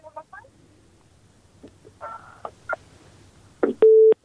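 A steady mid-pitched telephone line tone on a call-in line, where the call connects but nobody answers, sounds after a few short blips and holds briefly at full loudness before cutting off.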